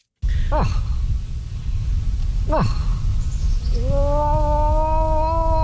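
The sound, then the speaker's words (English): A person imitates a moose with a human moose call: two quick sweeping, falling calls, then a long steady droning call that holds to the end. “Well, if you don't recognize it, that's the sound of a moose call”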